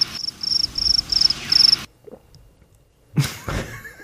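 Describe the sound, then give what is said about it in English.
Crickets chirping in fast, high-pitched pulsing trills, fairly loud and steady, that cut off abruptly partway through, followed by near silence and then a few brief louder sounds. “Or whatever that sound is. Sounds kind of crickety. It's very crickety-esque.”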